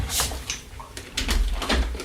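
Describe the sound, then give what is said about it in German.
A window being closed by hand: a few soft knocks and a brief sliding rattle, fairly quiet, with faint background noise. “Sekunde, ich muss mal gerade hier ein Fenster schließen.”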